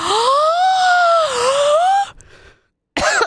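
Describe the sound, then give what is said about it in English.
A wheezing gasp from someone who has accidentally inhaled a hair: a loud, squeaky, strained vocal tone held for about two seconds with a wavering pitch, then silence, then a short rough burst. “Sorry. I think I inhaled a hair.”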